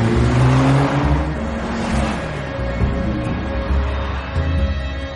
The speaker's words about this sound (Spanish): Se marchan de la zona de la fábrica y a continuación circulan por una autopista sin apenas tráfico.